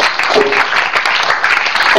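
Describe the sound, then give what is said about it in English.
Congregation clapping during a church sermon, many hands together in a loud, dense, sustained burst that stays level throughout with no talk on top. “Give Jesus a clap offering.”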